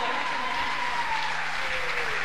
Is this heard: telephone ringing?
no